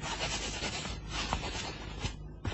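A pen scratches on paper as someone writes on a legal certificate, giving a faint, continuous rubbing scratch with small, uneven strokes over steady hiss.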